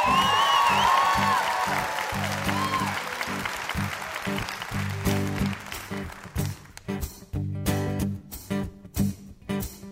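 Applause welcomes a singer and his band back to the stage, a loud, steady roar of clapping that fades as rhythmic band music with bass and drums takes over.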